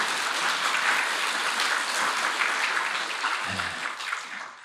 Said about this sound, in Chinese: 你们这样掌声呢，李悦老师就不得不来了啊。